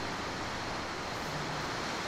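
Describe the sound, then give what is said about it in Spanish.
Heavy rain downpour, a steady, dense hiss of falling water, faint and unbroken from start to finish. “Un baldazo de agua, ya tenemos otro. Pero damos gracias a Dios, ¿verdad? Por la lluvia.”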